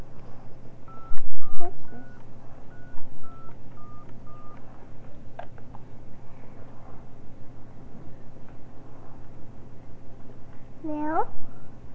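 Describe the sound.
Telephone dialing tones from a call to a time service: a quick series of about seven clear, steady beeps over a constant low hum, followed by quieter background sound.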